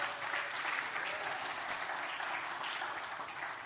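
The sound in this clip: Audience applause welcoming a guest up to the stage at a morning event: dense, steady clapping that carries on throughout.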